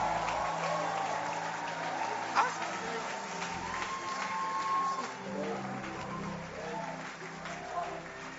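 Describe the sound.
An audience on its feet applauds to welcome a guest doctor to the stage, a steady, dense wash of clapping that holds evenly throughout, with a few louder claps and some voices mixed in.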